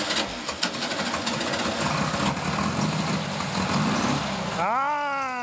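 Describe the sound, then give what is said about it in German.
A 44-horsepower buggy engine runs with a steady, rough low rumble and broad noise, then revs near the end as its pitch climbs. “Können wir deinen Buggy mal rausholen? Wie viel PS hat der? 44 PS.”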